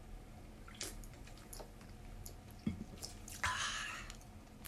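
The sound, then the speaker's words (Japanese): Faint wet sips and swallows of cola, soft clicks and gulps, with a short hissing burst near the end. “私はコーラを飲みます”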